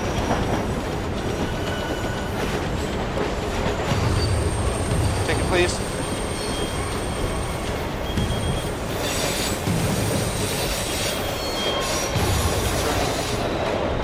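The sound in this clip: Steady low rumble of a subway train running on rails, heard from inside the carriage, with thin high wheel squeals drifting in and out over the continuous roar.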